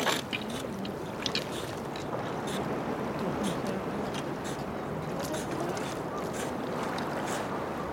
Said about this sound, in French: au RTF, la mer très calme remonte et bute sur une frise de rochers compacte. Et puis alors, tout d'un coup, on va s'intéresser à un couple qui pêche, là.